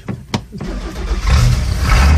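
A lobster boat engine starts: a few short cranking bursts, then it catches into a loud, low, steady running rumble that holds to the end.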